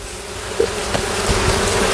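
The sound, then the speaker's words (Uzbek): Honey bees buzzing in a dense, steady drone that stays even in loudness throughout, with a faint low hum running beneath the swarm. “Asal arilar.”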